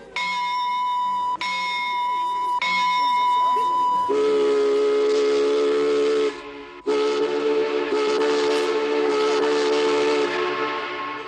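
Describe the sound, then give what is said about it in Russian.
A departing steamship sounds its steam whistle, first as a steady, bright tone broken into three segments, then as two longer, fuller blasts separated by a short pause. “Пароход отправляется!”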